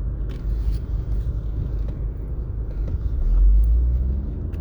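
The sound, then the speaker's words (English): Deep, steady engine rumble from a big transfer truck on a highway, dense and low throughout, swelling louder for about a second near the end before easing back. “Got somebody blocking the highway, a big transfer truck out in the middle of two lanes.”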